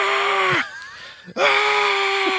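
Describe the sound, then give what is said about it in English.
A loud, strained human yell made for physical comedy: two long, harsh voiced bursts split by a short, quieter dip in the middle, with strong vocal harmonics. “I had to make a face to do that yell. It was a good face.”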